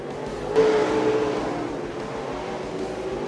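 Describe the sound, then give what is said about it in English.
Race car engine droning steadily as the car runs down the back stretch of an oval track, a continuous moderate roar without speech. “He's got her motoring down the back stretch, and we got another spin.”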